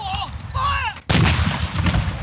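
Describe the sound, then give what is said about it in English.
A ceremonial gun salute fired to mark the dissolution of parliament: one loud, sharp boom that cuts in suddenly and leaves a long, heavy rumble echoing. “As the guns were fired off to mark the dissolution of Parliament, Prime Minister Anthony Albanese”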